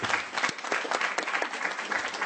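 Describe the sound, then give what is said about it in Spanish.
Applause from an audience right after a birthday song for a friend: dense, continuous clapping fills the whole moment, loud and even throughout. “Un aplauso para mi buen amigo Beto.”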